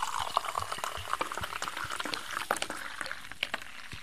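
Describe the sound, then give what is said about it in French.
A drink foams and fizzes as it is poured, with a steady crackling hiss and many tiny pops and drips throughout. “Ah oui, il mousse bien. Ça mousse bien, mais les boules, ça, ils disparaissent assez vite.”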